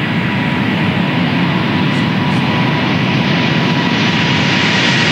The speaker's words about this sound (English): This is a high thrust. It barely gets a tail on the ground, and it'll get airborne fairly quick.